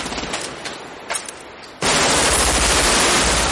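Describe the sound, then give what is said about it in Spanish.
Gunfire from several guns in a shootout between fugitives and police among cars: scattered shots at first, then a sudden, loud, continuous roar of rapid automatic fire that holds to the end. “Los tres fugitivos disparan en los dos frentes.”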